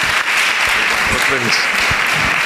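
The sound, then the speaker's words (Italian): Loud, continuous audience applause at an event with spiritual parts and live music, dense clapping throughout, with a voice briefly heard over it. “a cui faremo un altro bel applauso”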